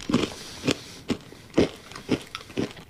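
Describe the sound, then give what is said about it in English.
Sugar cookie flavored M&M candies crunch between the teeth in about six distinct, evenly spaced bites, each a sharp crackly burst over faint background hiss, with no talking. “I think they nailed the flavor. It does taste like a sugar cookie with sprinkles. Yeah, this is way better than the fudge brownie M&M.”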